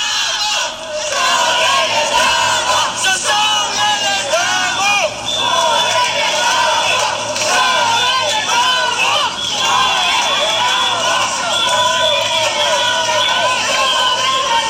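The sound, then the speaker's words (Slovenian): Loud crowd noise from a protest in Trbovlje: many voices shout and chant together in a steady, dense roar that continues for the whole stretch with no clear pauses. “Tako se je slišal prvi protest, ki je že v soboto potekal v Trbovljah.”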